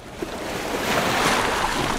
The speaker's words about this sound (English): I've just got into the Forth of Firth. The water's about 6 degrees.